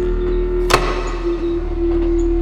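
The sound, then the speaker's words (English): A running pump gives a steady, low mechanical drone with a constant hum, and a single sharp knock partway through. “The pump, it's running, Ella. Listen to it.”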